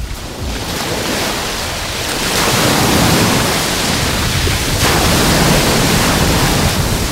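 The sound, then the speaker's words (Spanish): Ocean waves break on a sandy beach while a westerly wind blows. The surf roars loud and continuous, swelling stronger after the first couple of seconds, with wind rushing over it and no voices. “donde sopla viento de poniente y donde el mar suena así. Hoy tenemos olas y esto es lo que escuchamos los que nos encontramos sobre la arena”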